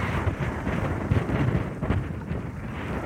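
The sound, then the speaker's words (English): Wind blows by a reservoir and buffets the microphone, making a steady low rumble with uneven surges and no voices. “So I'm right out round by the reservoir now and getting buffeted by the wind a little bit.”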